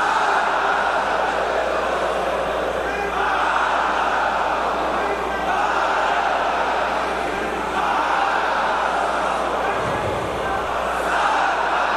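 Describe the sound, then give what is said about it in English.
Worshippers chant loudly in unison at Friday prayers in Tehran: a dense crowd sound of rhythmic, shouted phrases with brief dips between them. “Here is the sound of worshippers chanting with raised fists during Friday prayers in Tehran.”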